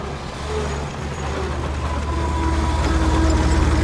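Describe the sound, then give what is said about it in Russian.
A truck driving along a street gives off a deep, steady engine rumble that swells gradually over a few seconds, with no voices. “Едет грузовая машина.”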